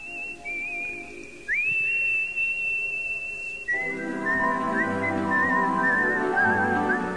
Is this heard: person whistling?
yes

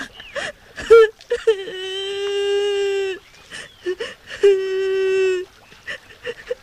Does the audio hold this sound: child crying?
yes

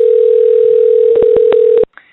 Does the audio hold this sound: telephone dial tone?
yes

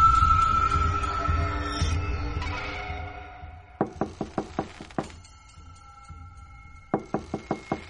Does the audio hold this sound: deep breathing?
no

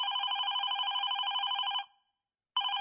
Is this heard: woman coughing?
no

